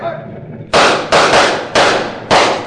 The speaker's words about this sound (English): You other men, fire at that wagon.